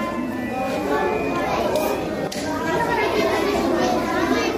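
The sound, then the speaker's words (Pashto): Many children's voices chatter together in a newly built library in Nangarhar where they have gathered to read, forming a dense, continuous murmur at a steady level throughout. “دا د هغه ماشومانو غږ دی چې ننګرهار کې د جاپان هیواد په مالی مرسته نوی جوړ شوي کتابتون کې راټول شوي دي او د خپلې خوښې وړ کتابونه لولي”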